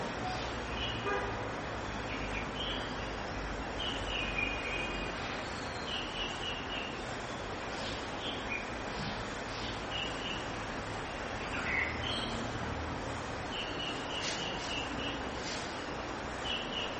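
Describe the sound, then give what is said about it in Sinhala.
Birds sing outside in faint, scattered chirps over a steady, rushing background noise. “දැන් ඔහම ඉන්න ගමන් බලන්න එළියේ කුරුල්ලෝ ඒක දැනගත්තේ කොහොමද?”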